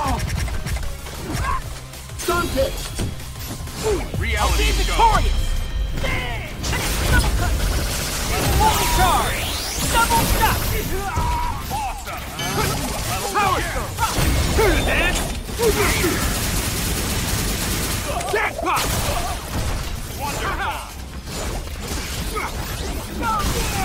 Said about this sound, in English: I don't even know what that does. It looks like a... sounds like a chain or something.